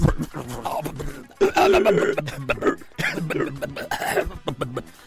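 A person vocally imitates a car engine idling and then starting, producing rhythmic, throaty, cough-like sputters and rasping bursts in uneven clusters.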